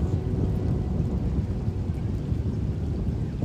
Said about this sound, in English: Listen to the rain and the pond on the leaves, the thunder.